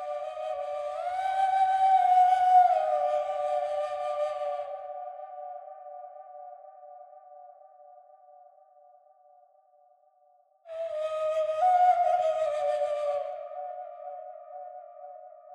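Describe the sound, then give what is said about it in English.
A small blue flute from Bali, drenched in reverb, plays two breathy phrases. The first swells with slight pitch bends, then thins into a long, slowly fading held note; the second enters abruptly near the end, loud again. “I use the second flute in this piece, which sounds like this.”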